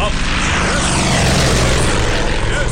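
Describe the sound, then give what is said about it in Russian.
A training aircraft performing aerobatics overhead: a loud, continuous propeller-engine roar that fills the whole stretch with a dense, rough drone. “В небе учебный самолет выполняет фигуру высшего пилотажа.”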